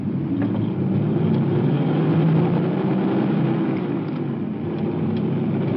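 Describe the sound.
A police car's engine roars as it pulls away in response to a fight in progress, a loud, steady, broad rumble holding for several seconds, with no siren yet and no voices.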